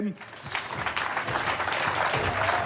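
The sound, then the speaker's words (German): Audience applause at a live band performance: steady, dense clapping that swells quickly and holds, with a man talking over it. “Ein bisschen klatschen.”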